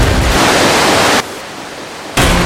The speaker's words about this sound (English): this river actually runs throughout the entire cave, which means we'll be spending some time in it.